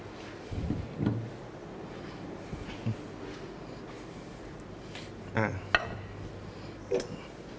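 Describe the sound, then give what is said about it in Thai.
A teacher picking up a serving plate during a cooking lesson, just as a mixed Thai spicy salad is finished, giving a few light clinks and knocks of crockery spread over an otherwise quiet background. “ขออนุญาตหยิบจานที่จะใช้เสิร์ฟก่อนนะครับ”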